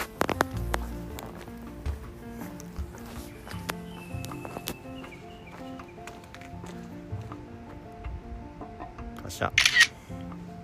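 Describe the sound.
A camera shutter fires near the end as a photo of a fox is taken in the Tokachi mountain range, a short bright crackling burst standing out over a steady, busy background.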